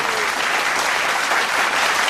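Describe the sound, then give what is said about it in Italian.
A studio audience on an Italian sports and entertainment show applauds wildly, a dense, unbroken wash of clapping at constant loudness. “Pubblico in delirio”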